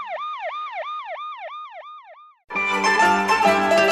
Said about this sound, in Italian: In lontananza una sirena della polizia si faceva sempre più vicina.